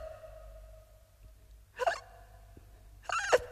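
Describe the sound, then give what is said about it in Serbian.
Two sharp hiccups come from a boy who has been gulping big bites of food without chewing. Each is a short, abrupt catch of breath, the two spaced more than a second apart over a faint low hum. “Opet štucaš.”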